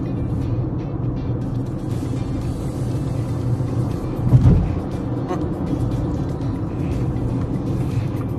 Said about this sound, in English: There's a little bit of more of a noise from the motors than I'm used to.